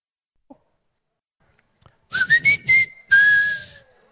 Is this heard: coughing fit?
no